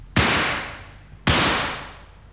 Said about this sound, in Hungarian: Jelzőlövést adok a lentieknek.